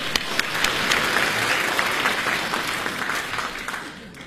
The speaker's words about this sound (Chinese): 再来点掌声。